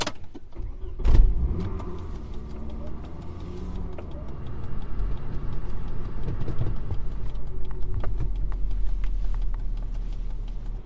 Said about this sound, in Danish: nogle gange så sætter jeg mig ind i min gamle Volvo. Den er 20 år gammel, og det er her, jeg sidder nu, og som man kan høre, så har den en ganske almindelig benzinmotor